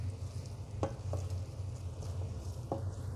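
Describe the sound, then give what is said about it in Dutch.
Tomato puree frying in a pan with garlic and onion gives a steady, low sizzle throughout, broken by a few sharp scrapes of stirring. “En die tomatenpuree, die, die fruit ik even mee aan. Dat ontzuurt hem wat. Dus dat gaat mee bij de knoflook en de, de ui.”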